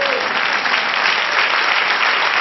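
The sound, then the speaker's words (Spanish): Applause at a religious sermon: dense, steady clapping from many hands, loud and unbroken for the whole stretch. “Denle otro aplauso al Señor.”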